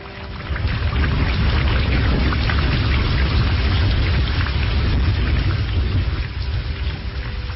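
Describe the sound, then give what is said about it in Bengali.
Heavy rain and wind in a storm produce a dense, continuous hiss over a deep low rumble, loud and steady throughout with no talking. “দুশ্চিন্তার আরো কারণ হল আজ সকাল থেকেই দুর্যোগ চলছে, যেমন বাতাস তেমনি বৃষ্টি।”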